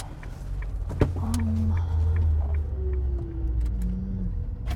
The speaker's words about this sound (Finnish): Just gonna park here. Or maybe on the other side.